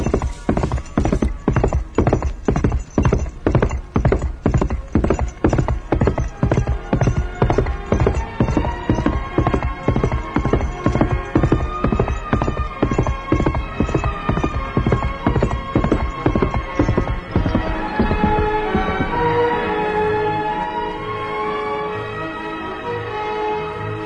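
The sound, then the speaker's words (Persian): A horse with a rider gallops in a steady, rapid clip-clop of many hoofbeats. The beat slows and fades near the end, where a whinny rises. “من از اینجا میبینم که سواری با شتاب تمام به طرف ما میاد.”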